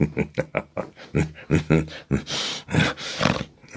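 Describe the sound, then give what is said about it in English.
A short, rough growl closes a stretch of emphatic speech, the voice breaking into a few harsh, noisy roaring bursts at the end. “That little growl at the end, too.”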